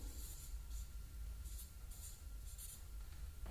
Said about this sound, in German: Und hier muss ich auch nochmal Person hinschreiben.